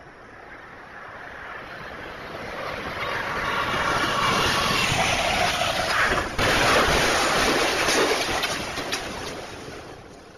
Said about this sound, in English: This is the audio from the crash video.